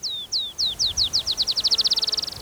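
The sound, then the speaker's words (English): Black-chinned sparrow song: a loud series of high, thin, downslurred notes that begin slowly and speed up into a rapid, even trill, like a bouncing ball, heard alone with no talk. “Black Chin Sparrow singing.”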